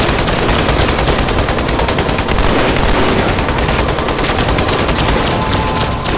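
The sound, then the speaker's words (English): Rapid, continuous gunfire from an enemy ship in a video game: a loud, dense barrage of overlapping shots with no break for the whole stretch. “Stop shooting. That ship likes to shoot me.”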